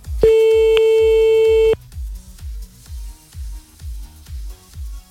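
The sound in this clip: An unanswered phone call rings out with one long, steady, loud ring tone lasting about a second and a half. The line then goes quiet, while a low pulsing beat thumps regularly throughout.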